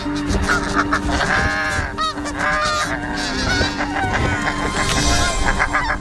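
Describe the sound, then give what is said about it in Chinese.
Snow geese honk loudly and repeatedly as two pairs fight over a safe nesting site on tundra grassland, harsh overlapping calls rising and falling in a dense, continuous chorus with no speech. “为争夺最安全的筑巢点，两对雪雁夫妇展开了激烈的争斗。”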